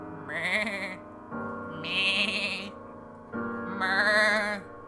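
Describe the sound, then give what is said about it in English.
Goats bleating one after another: three drawn-out, quavering calls, each lasting over a second, with short pauses between them. “That's what the goat in front says. And then some other goats chime in.”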